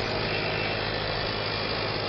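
A car engine runs, an underpowered motor that sounds weak, giving a steady, even low rumble and hum with no change in pitch or loudness throughout.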